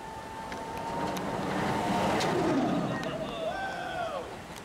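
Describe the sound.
Rushing wind and a low roar from the Giant Drop ride on the Tower of Terror, swelling in the middle and easing off again, with faint high tones through the noise.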